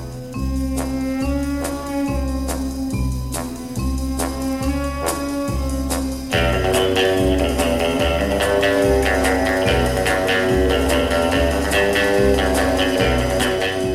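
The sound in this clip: Orchestral spy film theme music: a steady, pulsing rhythmic vamp over a low bass line, which becomes fuller and louder as more instruments join about halfway through. It plays continuously, with no talk.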